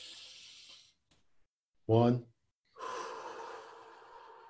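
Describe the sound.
Deep breathing during a relaxation exercise: a soft, airy breath is followed by a brief voiced gasp and then a longer, steady breathy exhale.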